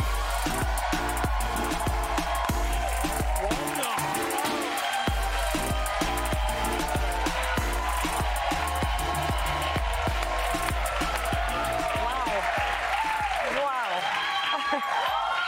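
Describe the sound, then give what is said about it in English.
A studio audience at a comedy talk show whoops and cheers over brisk applause as a guest is welcomed, with many bright, sliding whoops piling up and growing more frequent toward the end. “It's a lot of wooing.”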